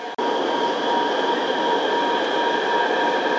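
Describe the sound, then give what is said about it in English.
A subway train arriving at Beishaowa station, with a loud, steady rumble and a sustained tonal whine running through the whole stretch. “北邵洼站到了， We are arriving at 北邵洼 station。”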